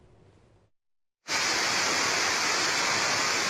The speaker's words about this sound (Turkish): Bardaktan boşalırcasına yağdı. Yollar su altında kaldı.